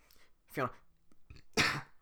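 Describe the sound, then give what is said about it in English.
A throaty cough-burp forced out of air swallowed while holding a deep, gruff character voice, heard as two short, rough bursts separated by a quiet gap. “I swallow a bunch of air when I'm doing the Shrek voice, and I, like, kind of cough burp it out.”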